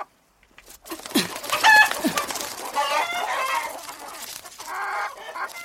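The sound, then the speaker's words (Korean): Chickens clucking busily as the lower door of their coop is opened, many loud overlapping clucks and squawks continuing throughout without any pause. “문을 열 때 닭들은 재빨리 바깥으로 붙었다.”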